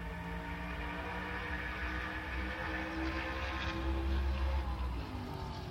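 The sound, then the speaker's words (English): Drag racing vehicles roaring at the finish of a drag strip, a continuous, fairly even engine drone that swells slightly toward the end. “So from Santipod, listen to the drag racing finish.”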